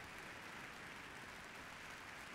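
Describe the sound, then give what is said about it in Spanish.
Faint, steady applause from a concert audience after an orchestra's performance of Le Grand Tango featuring a solo double bass, a soft, uniform wash of clapping with no breaks. “y también, por supuesto, compartir ese aplauso con los músicos de la Osodre que han interpretado Le Grand Tango.”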